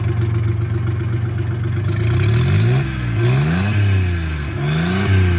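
A Pro-Drive boat motor heard next to its muffler, idling steadily as a low drone, then revved several times so that the pitch rises and falls in repeated swells.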